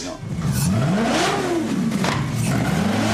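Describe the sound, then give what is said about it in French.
A 4.7-litre, 470-horsepower Maserati GranTurismo S V8 mounted in a custom four-wheeled motorcycle revs hard and loud, its deep growl sweeping up and down in pitch over a rough, continuous roar. “je voulais avoir le son du V8, en tout cas, et un moteur italien. Du coup, je suis parti sur un V8 Maserati Gran Turismo S, 4,7 litres, 470 chevaux.”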